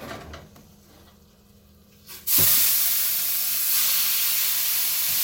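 Food sizzling in a hot cast iron pan, a sudden loud, broad hiss that bursts in after a quieter stretch and holds steady to the end.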